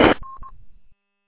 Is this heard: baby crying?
no